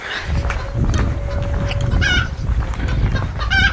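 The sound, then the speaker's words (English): Chicken clucking: a few short, bright calls rise above a steady, noisy rumble, with the clearest calls near the middle and the end. “This is the sound of a chicken.”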